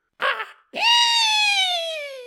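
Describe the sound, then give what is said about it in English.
A voice imitates the shriek of a creature from the sky: a short breathy burst, then a long, sustained, high wail whose pitch slowly drifts downward, heard alone. “I know that wasn't the loudest shriek. Maybe I'll do something to it. Maybe I'll make it sound extra spooky in post.”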